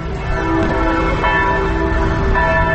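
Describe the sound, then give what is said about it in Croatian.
Church bells ring from a Catholic cathedral in Pristina, their overlapping metallic tones sustained and steady at a loud level from start to finish, with no voices. “zvuk zvona sa katoličke katedrale u Prištini”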